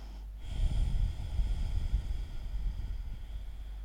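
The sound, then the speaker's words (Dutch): Loud breathing in and out through the throat, demonstrated as part of a relaxation exercise: a continuous low, rasping rush of air that swells and eases over a few seconds, with no talking. “Dat je eigenlijk met je keel luider gaat in- en uitademen. Ik ga het even voordoen.”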